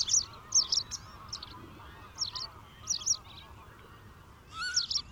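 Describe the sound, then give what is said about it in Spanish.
Wild geese and cranes call from flooded fields in thick fog, their high honking cries coming in short irregular bursts over a faint, steady background hum. “como nosotros, miles de grullas y gansos silvestres tampoco encuentran las lagunas.”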